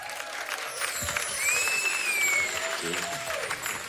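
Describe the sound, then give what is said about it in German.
Audience applause greets a performer coming onto a stage, a dense, steady wash of clapping that lasts about four seconds, with a thin whistle rising above it midway. “kriegen wir mal Applaus für meinen Bruder Kick.”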